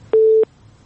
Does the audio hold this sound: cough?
no